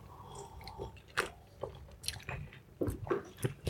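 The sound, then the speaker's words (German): Sips of a drink taken from a can: faint wet slurping and mouth sounds in several short bursts, with no talking. “Ich nehme mal einen Schluck.”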